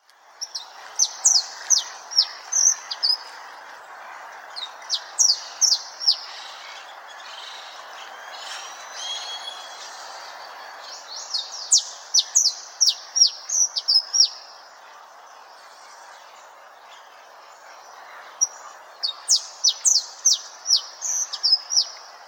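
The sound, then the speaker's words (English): Black Francolin calls: loud, harsh, chirping multi-note phrases repeated in several bouts with pauses between them, over a steady low hiss. “Black Francolin.”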